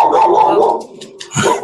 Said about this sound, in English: Yay, dogs!